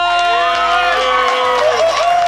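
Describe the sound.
An audience cheers and shouts loudly at the start of a comedy show. Sustained yells and whoops blend into a dense, steady roar that stays loud throughout.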